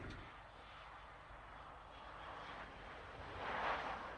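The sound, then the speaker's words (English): Faint airplane engine rumble heard from the Dublin Airport lay-by on a Sunday night, a steady low roar that swells slightly toward the end. “That's the Dublin Airport lay-by on a Sunday night. Aren't you glad you stayed listening? You thought that was going to be boring. You thought you were going to be able to sneer at those people sitting there watching the airplanes go by.”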